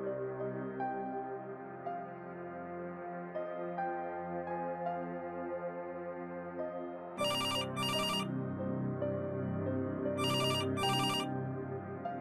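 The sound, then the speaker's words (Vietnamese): A telephone rings repeatedly in double rings, two pairs of shrill, bright bursts over a sustained low musical drone. “Ông Ninh tỉnh giấc bởi tiếng chuông điện thoại reo liên hồi”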